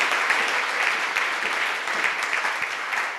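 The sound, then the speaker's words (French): A church audience claps in praise to the Lord, producing dense, steady applause of many hands that stays loud and even throughout. “Acclamons le Seigneur d'avoir trouvé de tels hommes au milieu de nous. Let's clap for the Lord for having found such men among us.”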